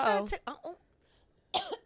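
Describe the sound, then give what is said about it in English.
A coughing fit from someone with a lingering cough: a few harsh, voiced coughs in a tight cluster, a short quiet pause, then another burst of coughing. “Sorry, I'm having a coughing fit.”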